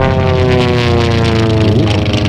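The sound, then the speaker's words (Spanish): Loud, steady propeller drone of a small plane taking off in the Marquesas Islands: a dense stack of engine tones held at an even pitch, with no talk. “ya va a despegar, venga. Agárrate, ponte el cinturón.”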